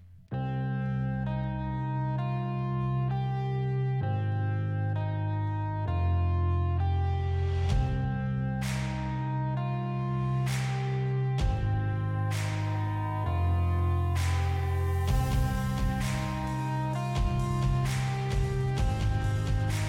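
A wrestler's new entrance music plays throughout: a steady electronic track with a sustained bass line and repeating bright, bell-like tones. Sharp percussive hits join partway through and keep the beat loud and driving.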